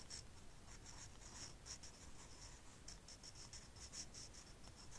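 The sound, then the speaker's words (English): Pen or pencil writing a word by hand on paper, then underlining it freehand without a ruler, heard as a quiet, steady run of many short scratching strokes with small pauses between letters. “Now, we're going to write weekend above that one.”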